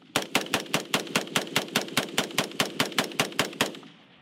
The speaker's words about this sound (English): So this is a 40-round clip, and so every time I pull the trigger 40 times, I can lose all the ammo inside of that clip.